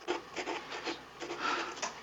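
Pen scratching on paper as a crew member writes in a cramped compartment: a series of short, rasping strokes in an uneven but steady rhythm, soft and dry, with no talk.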